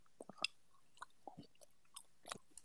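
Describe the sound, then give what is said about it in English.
Someone chews close to a microphone, producing faint, irregular crunches, clicks and wet smacks scattered unevenly across a couple of seconds, with no talking. “Who's making that noise? Who's eating their microphone? That's disgusting.”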